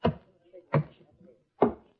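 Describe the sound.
Three heavy clunks come from a damp, sand-gritted heavy suitcase being opened. They are evenly spaced about three-quarters of a second apart, each short and thudding, with no talk.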